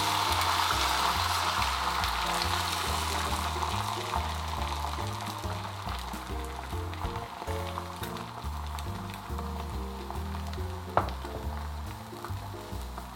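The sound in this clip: Steady frying sizzle as an egg cooks in a hot pan greased with sprayed avocado and coconut cooking oil; a loud, even hiss runs throughout, broken by one brief sharp crackle near the end.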